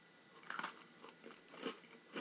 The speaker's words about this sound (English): Mint Oreo. Oh, that's so good.